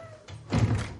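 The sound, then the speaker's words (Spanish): A door is shut and locked with a key: a soft thud, then a louder rattling clunk lasting about half a second, with no voices. “sale y cierra con llave”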